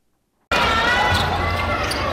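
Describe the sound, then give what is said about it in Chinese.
A basketball is dribbled on a court during a youth tournament, set within a steady wash of crowd noise and voices that starts abruptly after a short silence. “篮球场上传来运球声与喝彩声”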